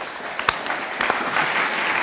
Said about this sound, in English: I wonder if we could put our hands together to welcome our two speakers,